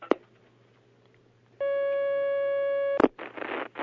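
A steady electronic telephone line tone marks an incoming call to a lecture's question session, holding one even pitch for over a second, framed by faint clicks on an otherwise quiet line.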